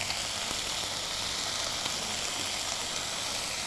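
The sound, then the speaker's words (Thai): Noodles stir-fry with straw mushrooms, soy sauce and oyster sauce, giving a steady, even sizzling hiss throughout with faint crackles and no talk. “แล้วก็น้ำตาลแดงนะคะเราผัดคลุกเคล้าให้ทั่วพอส่วนผสมเข้ากันกับเส้นดีแล้วนะคะ”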